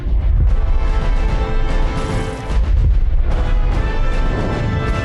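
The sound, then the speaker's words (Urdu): Powerful improvised bomb explosion hitting a tank in an ambush: a loud, continuous, deep booming roar with a steady rumble, briefly easing near the middle before surging again. “گھات لگا کر حملہ کرنے والے مقام پر ایک بہت ہی طاقتور خود ساختہ بم نصب کیا گیا تھا. یہ تصاویر دھماکے کے لمحات اور اس کے بعد کو دکھا رہی ہیں.”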